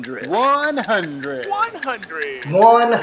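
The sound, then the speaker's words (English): A timer ticks steadily in evenly spaced crisp clicks. The ticks continue under continuous speech from a person talking. “as I bring my timer up here, I'm going to start.”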